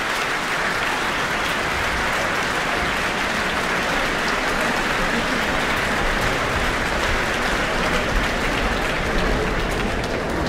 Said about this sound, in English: Great to hear such an enthusiastic response this evening from our audience here in the Auckland Town Hall.